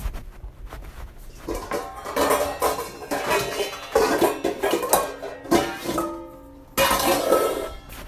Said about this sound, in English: I'm getting a bowl. Where's my bowl?